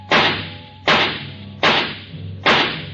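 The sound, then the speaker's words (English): A gun fired at a tree, four loud, sharp cracks at an even pace, each snapping on hard and trailing off quickly, with no voices. “This time, when he fired, his eyes were closed.”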